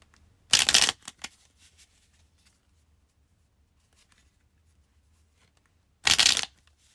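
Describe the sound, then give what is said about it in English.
Tarot cards being shuffled and drawn. Two short, crisp bursts of shuffling are separated by a long quiet gap, and a few faint taps of cards follow the first burst. “So we're going to pull one more card here.”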